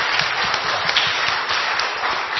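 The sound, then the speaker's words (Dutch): An audience applauds during a church service, giving a steady, fairly loud wash of clapping with a few sharper hand hits and no speech over it. “En ik wil hem ook nog even een applaus geven.”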